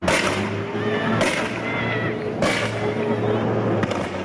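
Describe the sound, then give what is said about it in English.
Police tear gas launchers firing down a residential street: three sharp, loud bangs spaced over a few seconds above a constant, noisy background. “Here's some video shot by a bystander as police went down the street, really letting go with the tear gas.”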